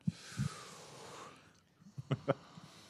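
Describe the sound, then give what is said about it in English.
A sharp intake of breath from a person reacting to a question in a team quiz game: a breathy hiss lasting about a second, then a short quiet gap and a few brief soft knocks. “The intake of breath there”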